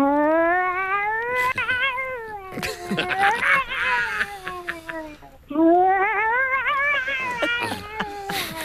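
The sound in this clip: A person imitating a cat in a cat-impression contest, producing a loud series of drawn-out, wavering meows and yowls with sliding pitch, broken by a brief pause before another run of calls.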